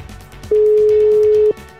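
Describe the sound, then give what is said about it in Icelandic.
A steady telephone dial tone holds one even pitch for about a second, starting and stopping abruptly over a low background murmur. “ég ætla að hringja hana Jónu Margréti”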